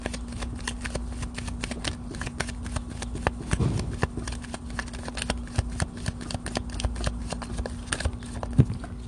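Tarot cards shuffled by hand, with a deck riffled and cards popping out, giving many quick, light, crisp clicks and flutters in an uneven rhythm over a faint steady hum.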